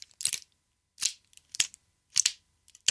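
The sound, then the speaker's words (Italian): A pill is pushed out of a blister pack of tablets, giving a few sharp, crinkly plastic-and-foil crackles in separate bursts with silence between them. “Che pastiglie sono? Un pozzo di cose, metti che sto male, sono in giro, viaggio spesso. Abbiamo aspirine, perfetto, tachipirina. Beh, il blister.”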